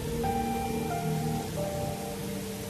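Heavy downpour of rain: a dense, steady hiss that continues throughout, with soft sustained musical tones beneath it.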